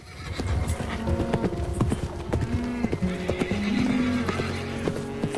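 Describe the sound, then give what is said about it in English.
Hooves clip-clop as an unbridled horse walks off in the sunshine to join the herd. Many irregular hoof strikes continue throughout, and a few neighs and whinnies rise over them. “removes the horse's bridle and bit and lets the horse ride off to join the pack in the sunshine”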